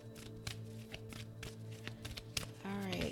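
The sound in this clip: Playing cards shuffled by hand, a quick rhythmic series of soft taps and riffles as cards flip out, with a voice starting to speak at the end.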